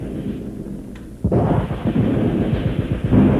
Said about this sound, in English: Tanks! Listen to them coming! There must be hundreds!